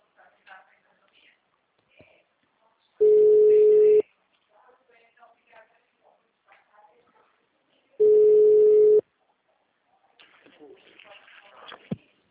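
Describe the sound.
A phone call rings out after being dialled: two steady, mid-pitched ringback tones, each about a second long and spaced five seconds apart, with faint murmuring voices in the gaps and after.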